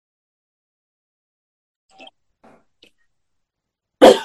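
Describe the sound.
A person with a sore throat makes a few faint, brief throat noises and then one sharp, loud cough at the end, with no talk.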